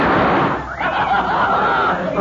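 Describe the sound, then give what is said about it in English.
Gunshots fired at a poker chip tossed from the back of a hand, loud dense bursts of blast noise filling the whole clip with a brief dip early on. “So you put the chip on the back of your hand and you're going to shoot it before it hits the floor like I did.”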